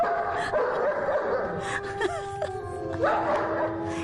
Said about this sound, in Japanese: 車に人面犬が追いかけてきたらどうしますか。これを今車の中で聞いてる人、ほら、あなたの右側に人面犬が